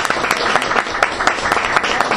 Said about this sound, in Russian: Аплодисменты, друзья!